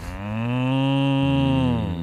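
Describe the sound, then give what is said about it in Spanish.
A person imitates a cow mooing with one sustained, low, voiced call lasting about two seconds. The tone holds steady and dips slightly at the end, loud and alone. “¿Quién hace un mugido de vaca mejor? A ver, dale.”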